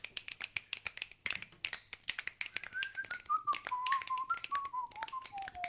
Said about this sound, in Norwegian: Hvem plystra? Var det du som plystra?